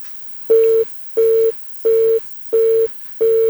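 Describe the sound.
A disconnected telephone call gives a busy-style tone: five loud, steady, mid-pitched beeps repeat in an even on-off rhythm, each lasting about a third of a second.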